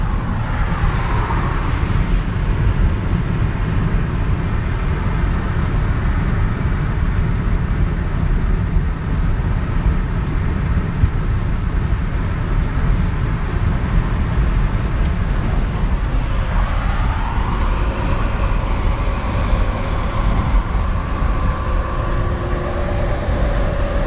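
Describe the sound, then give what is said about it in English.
Car driving down a freeway, heard as a steady, loud low road roar with a hiss of tire and wind noise throughout. No voices are heard. “This is 1 minute of me driving down the freeway.”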